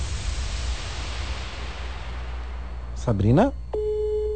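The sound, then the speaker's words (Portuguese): WhatsApp call ringing tone: over steady hiss, a brief rising vocal sound gives way to the onset of a plain, steady electronic tone that continues to the end. “Vou ligar pelo WhatsApp, que é mais fácil.”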